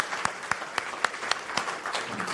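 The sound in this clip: Audience applause welcomes a speaker at a church gathering: a steady wash of clapping with a few sharper individual claps standing out at regular intervals, and no talking over it.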